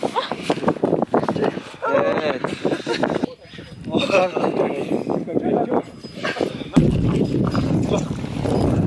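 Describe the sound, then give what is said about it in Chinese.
Horses ridden through a muddy, high-altitude wetland near the southern source of the Yangtze. Irregular hoof steps and rustling sound under people talking. “此处泥泞不堪，队员需要骑马前往。”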